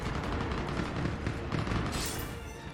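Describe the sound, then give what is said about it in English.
Gunfire in a video game cutscene, where a pistol is used to kill a sniper. Rapid, dense bursts of shots and impacts run continuously at a fairly even loudness, then ease off a little near the end. “Oh, it's a cutscene, so we have our pistol, of course. So yeah, it's uh, Brooks, Garrus. Okay, we use our pistol to kill a sniper.”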